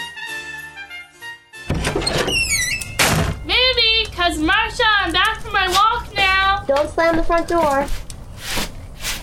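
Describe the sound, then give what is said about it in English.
A front door opens and shuts with a couple of dull, heavy thumps. Lively voices start talking right after and carry on over the rest. “The front door.”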